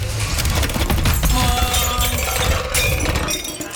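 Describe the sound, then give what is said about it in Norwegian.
A store shelf crashing down: a long, dense clatter of breaking glass and falling goods that stays loud throughout and tapers off near the end. “Ja, det var noen som prøvde å få tak I noe på hylla der, så raste det sammen, og da slo de seg da, da butikkhylla velta over dem.”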